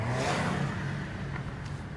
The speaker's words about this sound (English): Yeah, see all three of them cars that just flew past us.